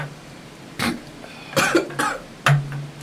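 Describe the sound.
Harsh, explosive coughing from a person who has just snorted whiskey. A few sharp bursts are spaced unevenly, with a couple run close together, followed by a heavy final cough.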